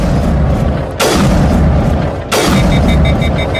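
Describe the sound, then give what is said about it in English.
Two loud sniper rifle shots in a video game, each a sharp, heavy boom with a long rumbling tail, about a second apart, over constant background noise, with faint repeating beeps after the second shot. “So let's shoot the root with the sniper rifle.”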